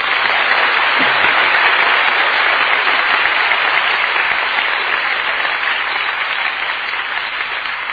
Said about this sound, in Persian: ولی دست که میتونیم قشنگ بزنیم اشکالی